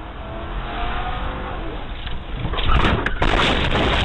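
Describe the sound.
A police cruiser's engine roars as it accelerates to ram an armed suspect, heard from a dash camera. The steady roar swells louder toward the end, with a couple of brief knocks.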